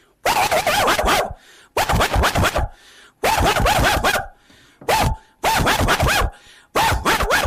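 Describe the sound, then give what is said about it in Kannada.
A dog barks at a visitor opening the front gate of a house, in several loud bursts of rapid, harsh barking separated by short pauses. “ಈ ನಾಯಿ ನಮ್ಮನ್ನು ನೋಡಿದರೆ ಬೊಗಳ್ತದೆ ನೋಡಿ.”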